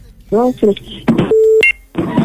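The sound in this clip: Telephone line tones as a call to a radio prize show connects: speech, then a steady mid-pitched tone and a short higher two-note beep, followed by more talking.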